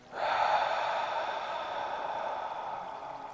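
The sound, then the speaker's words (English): A breath out during a breathwork exercise: one long, airy exhale that starts abruptly, holds steady for about three seconds and slowly eases off, with no voices. “Hold once more. Exhale.”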